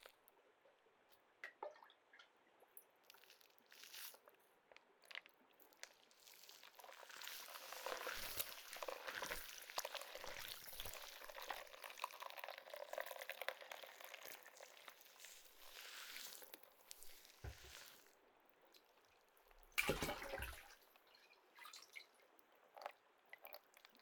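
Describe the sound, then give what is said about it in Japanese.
Water runs and drips as hair is rinsed after washing. It is faint overall, with a steady stretch of flowing water in the middle and a brief, louder splash near the end. “汚れが落ちたみたいなので、もう一度髪の毛を流します。”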